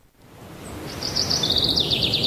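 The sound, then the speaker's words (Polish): Small birds sing in quick, high-pitched twittering chirps that fade in partway through and grow louder over a soft, steady background hiss. “Cii, spłoszysz ptaszki. Śpiewają w Muzeum Narodowym w Warszawie na wystawie Józef Chełmoński.”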